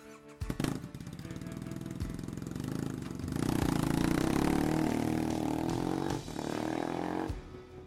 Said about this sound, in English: I'm Jed, and I ride a straight pipe Triumph Bonneville. Here's how it sounds.